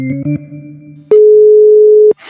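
A steady, single-pitched telephone dial tone holds loud and unbroken for about a second before a call. It is preceded by a brief cluster of lower, layered tones.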